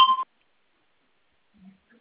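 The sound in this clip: A single short electronic beep from an automated phone system's voice prompt, a clean, steady tone lasting about a quarter second, followed by near silence and a faint low murmur.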